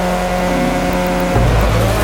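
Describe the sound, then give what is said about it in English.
Number 75 Subaru rally car engine as it sets off from the start of a gravel stage: a loud, continuous, buzzing engine drone that shifts in tone partway through as it pulls away. “The 75 Subaru sets off at a disadvantage. Being first on the road means they'll be sweeping the loose gravel off the racing line.”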